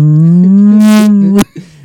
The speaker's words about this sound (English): Just drop in random farm animal noise.